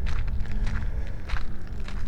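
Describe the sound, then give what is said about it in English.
Footsteps walking down a little alley: a fairly faint, steady series of scuffing steps at an even walking pace. “So what we're going to do is continue walking down this little alley”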